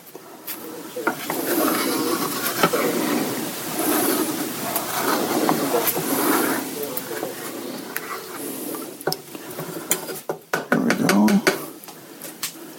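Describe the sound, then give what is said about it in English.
Spoon stirring a pot of taco filling with adobo and chilies: a steady, scraping churn runs throughout. Sharper clinks and knocks gather near the end. “just sprinkle some in, because I don't think with that adobo and those chilies we need that much taco seasoning. There we go. Okay. That's that. One last stir.”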